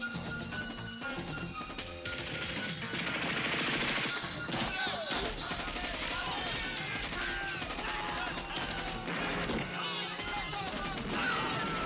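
Film gunfire from an action scene set in a garden: a dense, continuous clatter of shots mixed with loud crashes and thuds that fills the whole stretch without a break.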